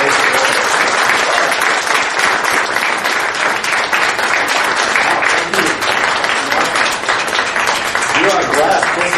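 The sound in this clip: Audience applause welcoming a guest: dense, continuous clapping from many hands that stays loud and steady for the whole nine seconds.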